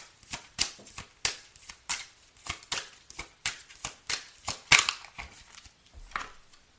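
Playing cards shuffled and drawn for a card reading, a long run of crisp riffling snaps in a fairly regular rhythm, heard alone without talk.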